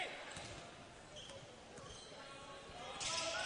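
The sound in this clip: A basketball being dribbled near the side of the court during a game, its faint rhythmic bounces half-buried beneath steady crowd noise.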